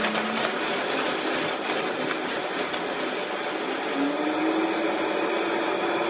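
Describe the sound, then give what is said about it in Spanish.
A blender whirs as it blends corn kernels with milk, giving a steady, loud motor drone with a gritty, churning texture that holds for the whole stretch without pauses or voices. “Desgranamos los choclos, ponemos en una licuadora, agregamos la taza de leche. Los licuamos aproximadamente 2 minutos.”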